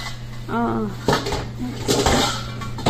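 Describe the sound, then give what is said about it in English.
Plastic Tupperware lids fall and clatter during kitchen prep, a few hollow knocks standing out sharply above low background noise, with a brief vocal sound near the start. “Oh, and there goes one of my lids. Or two of my lids, actually.”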